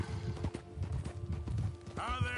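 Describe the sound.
Horse hooves clip-clop in the video game Red Dead Redemption 2, a quick, steady rhythmic trot under a man's talking.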